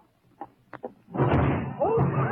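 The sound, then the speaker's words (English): A door crashing down on someone: a few soft knocks, then a loud, sustained crash and rumble, with a voice crying out toward the end. “Get me out from under this door!”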